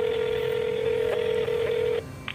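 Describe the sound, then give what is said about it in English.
A telephone tone sounds as a call is placed to a pizza shop. One steady mid-pitched beep holds for about two seconds and then cuts off, followed by a brief faint blip. “So he asks around, he Googles around, and then he finally picks up the phone.”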